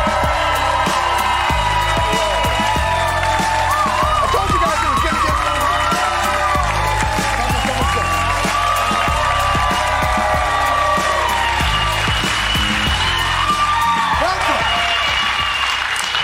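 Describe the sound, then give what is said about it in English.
A studio audience gives the guests of a talk show a standing ovation: loud, sustained applause mixed with cheering and whoops that carries on without a break. “Very rarely do you get a standing ovation for the guests”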